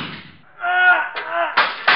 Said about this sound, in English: Stop, or I'll shoot!